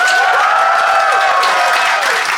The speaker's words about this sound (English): If you think the baby is in the right, I would like you to applaud for Pierre and Ben now.